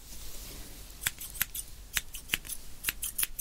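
Scissors snip crisply during a haircut, giving several sharp, faint cuts in an uneven rhythm with no talk over them.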